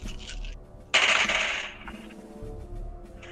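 Dice rolled for a defense roll in a tabletop role-playing game, six dice in the pool: a sudden bright clatter lands about one second in and rattles away over roughly half a second, with quieter low rumbling before and after.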